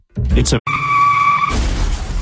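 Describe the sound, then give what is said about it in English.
A car skids with a high, steady tire squeal, then gives way to a rough, noisy crash. A short voice comes just before the skid. “I heard about the Labor Day sale at Steve Hahn and just tried to get there too fast. Okay, maybe don't crash your car trying to get here”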